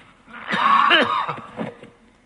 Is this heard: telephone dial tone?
no